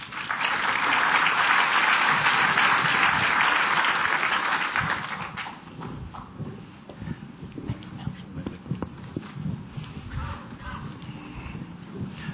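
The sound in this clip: Audience applause welcoming economist Bill Evans before his talk on the global and Australian economy: strong, full clapping for about five seconds, then it thins into scattered claps and background noise.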